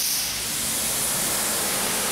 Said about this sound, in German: jetzt kommt hier die große Wasserdusche.